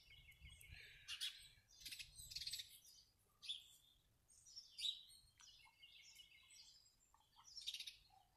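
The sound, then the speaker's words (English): Sparse birdsong in a backyard in Warwick, Rhode Island: faint, scattered chirps and short calls arriving in separate bursts with quiet gaps, over a low hum at the start. “let's listen to the birds just for a little while. They're sparse. They're spaced out in this backyard here in Warwick, Rhode Island.”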